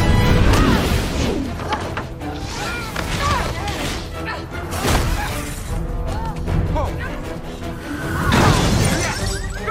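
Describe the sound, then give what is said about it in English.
Heavy crashes and shattering glass from a 2006 Hollywood movie fight scene in which two women fly off a roof onto a car windshield. A few loud impacts and breaking-glass bursts, with voices mixed in. “what you're hearing is a little bit of the epic fight scene between Uma Thurman and Anna Faris in the 2006 movie My Super Ex-Girlfriend. They go flying off a roof into the windshield of a car”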